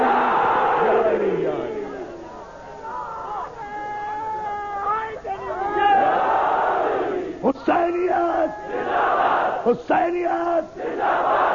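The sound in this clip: Crowd chanting the religious slogan Naara-e-Haidari: loud, sustained group shouts in voiced bursts, with several sharp collective cries rising out of the chant near the end.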